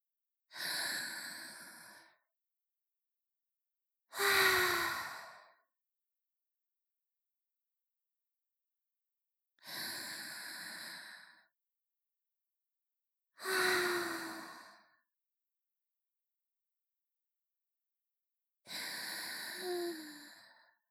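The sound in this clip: Five slow, deep breaths come one after another, each a long, airy, whooshing rush, separated by stretches of silence.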